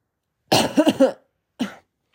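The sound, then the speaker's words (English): Coughing from a person: a quick cluster of several rough coughs, followed after a short pause by one more single cough, fairly loud and alone with no talking. “sorry, I'm literally coughing.”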